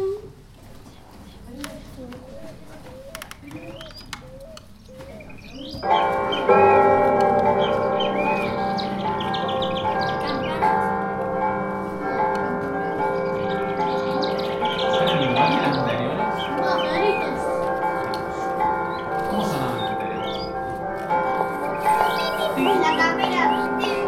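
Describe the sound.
Church bells ring in a convent soundscape recreating two hundred years ago, a sustained, resonant wash of tones that sets in about a quarter of the way through and holds to the end, with small bird chirps before it.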